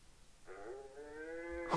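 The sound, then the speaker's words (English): A person imitating a cow with a single low, drawn-out moo of about a second, steady in pitch and fairly quiet, with nothing else around it. “Here, I'll do it. Let me see here. I could do a cow.”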